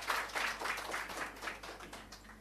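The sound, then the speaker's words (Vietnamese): Audience applause welcoming a monk at the start of a Buddhist dharma talk: a faint, continuous wash of many hands clapping that gradually thins out toward the end. “Xin mời quý vị cho một tràng pháo tay để chúng ta cùng đón thầy.”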